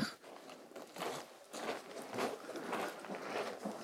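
Boots crunch on loose rock as people climb a stony hillside near Lake Fryxell Camp in Antarctica, a steady series of gritty footsteps with a walking rhythm.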